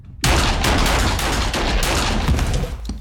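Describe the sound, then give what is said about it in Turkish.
Sustained gunfire, many rapid shots fired at an unarmed man in a prison cell setting, bursts in abruptly after a short quiet moment and stays loud and dense to the end with no voices. “Silahsız birini mi vuracaksın?”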